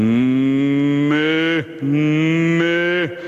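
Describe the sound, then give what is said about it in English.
A human voice imitates a bull calf mooing, making two loud, drawn-out bleating moos, each ending in a quick downward slide in pitch, with a short pause between them. “And as I'm carrying his bull calf, he's fidgeting and he's mooing, he's trying to get down.”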